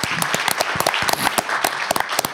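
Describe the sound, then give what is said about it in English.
Audience clapping at an evening event honouring trustees and council members. Many sharp, distinct hand claps come at an uneven rhythm, fairly loud and crisp, from a moderately sized crowd. “all the Chairman's Council members with us tonight for all their great work and support. Let's give them a big hand.”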